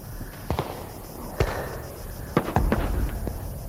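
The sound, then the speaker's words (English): Gunshots ring out in a film scene where a man teaches a woman to shoot: several sharp, loud bangs at irregular intervals, with two fired in quick succession near the end and quieter background noise between. “let's hear a clip from this where the Ed Harris character, Lou Sr., teaches Jackie, Kathy O'Brien, how to shoot a gun.”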